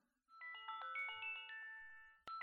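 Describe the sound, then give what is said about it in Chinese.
An alarm clock ringing with a bright electronic melodic chime, a steady run of tones that pauses briefly and then starts again. “闹铃响了，这么快就到点了。”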